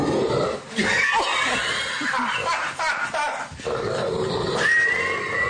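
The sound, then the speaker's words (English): A big dog gives rough, groaning vocalizations, loud and nearly continuous, with harsh growl-like tones that dip briefly and then swell again. “That's the dog making that sound.”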